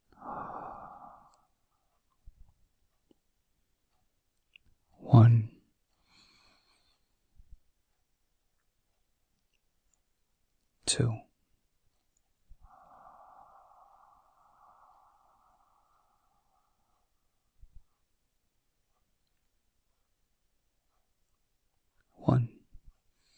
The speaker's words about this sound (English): Let's take a deep breath in through our nose in 1, 2,